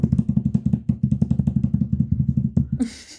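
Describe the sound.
A drum roll of rapid, evenly spaced low strokes, many hits rattling in a tight steady rhythm that cuts off abruptly near the end.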